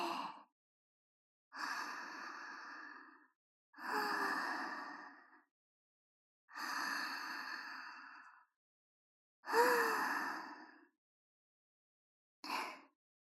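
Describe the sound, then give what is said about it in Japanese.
Slow, deep breathing in and out during a guided relaxation exercise: about six long, airy, sigh-like breaths, each followed by a clear silence, at an even, unhurried rhythm with no talk. “では、吸って、吐いて、吸って、吐いて。”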